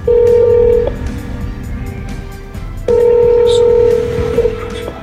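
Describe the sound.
Telephone calling tones on a call to a mobile number: two long, steady electronic tones separated by a pause, over a faint background hum.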